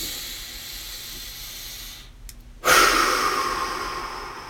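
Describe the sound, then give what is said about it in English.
A deep breath: a long, airy rush of air, a brief silent pause, then a second, louder breathy rush that slowly fades. No talking. “I want you to take a deep breath with me.”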